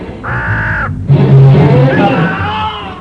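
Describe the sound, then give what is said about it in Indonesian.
A bird caws in two harsh, loud calls. The first is short and the second is longer and rougher, with no talk. “Awas, juragan! Burung jahat itu mau mematuk tuan!”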